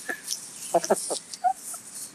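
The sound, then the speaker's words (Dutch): Contented clucking of a happy chicken: a few soft, brief, chirpy clucks and a short sung note, fairly faint and scattered over about two seconds. “We beginnen met het geluksgeluid van een kip. Een gelukkige dus dit kip. Dit is een hele gelukkige kip.”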